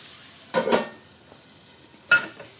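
Eggs fry on a hot griddle for a breakfast sandwich, giving two short bursts of crackling sizzle separated by a faint, quieter stretch, with no talking.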